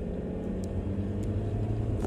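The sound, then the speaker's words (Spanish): Car accelerating hard, its rear tyres spraying dirt and gravel: a dense, steady low engine rumble that fills the whole short stretch without a clear rise in pitch. “Escuché cómo tierra y grava salían disparadas por las llantas traseras mientras me recargaba de súbito contra el asiento debido a la increíble fuerza de la aceleración.”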